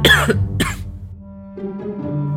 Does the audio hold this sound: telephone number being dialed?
no